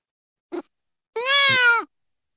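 A cat meows: first a brief chirp, then one drawn-out tonal meow that dips lower at its end, heard alone against silence.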